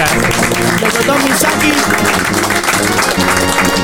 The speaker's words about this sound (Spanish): Así que un aplauso para Leandro Sapia.